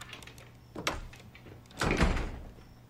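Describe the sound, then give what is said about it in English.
A sliding bathroom door is shut with effort: a short rattling slide, then a longer, louder rumbling scrape and knock as it closes. No voices. “He struggles to shut the sliding door behind him.”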